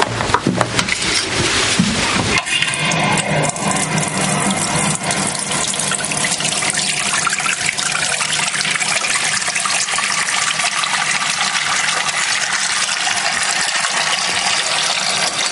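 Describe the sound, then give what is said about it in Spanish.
A kitchen tap runs into a sink with its drain plugged, a steady rushing gush of water filling the basin that continues throughout. “Ahora se dirige a la pila de la cocina con el ramo en la mano. Coge el tapón, cierra el desagüe y abre el grifo.”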